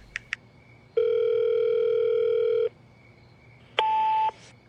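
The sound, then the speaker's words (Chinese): A telephone call being placed: two quick keypad beeps, then a long, steady, loud tone, and after a short pause a second, briefer tone. “温小辉知道一直躲下去也不是办法，主动给洛毅打了个电话。”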